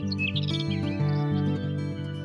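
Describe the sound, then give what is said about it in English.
Birds chirp in a garden, giving a few quick, high tweets over steady music. “Birds there are singing,”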